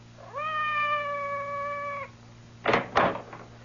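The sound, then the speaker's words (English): A cat meows outside a door, one long, steady, tonal meow that holds its pitch for well over a second, followed after a pause by two short, dull thumps. “Did you hear anything? Outside the door. It sounded like Madame's cat, Francois.”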